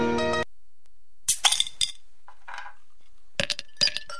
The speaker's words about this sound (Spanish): Coloca la mayor cantidad de hielo posible en un vaso de trago largo.